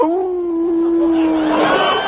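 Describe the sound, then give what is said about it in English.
A dog's long howl, one loud sustained mournful note that holds level, then breaks into a rougher, noisier tail. “Now, what in the divil are you howling about, Lionel?”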